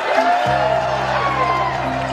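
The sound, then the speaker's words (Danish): Crowd cheering and whooping at a street party celebrating Labour's general election win over the Conservatives, a dense roar of voices with a steady droning tone running underneath. “Og viser jo et bragende nederlag til de konservative, og så udbryder der bare et gadefest.”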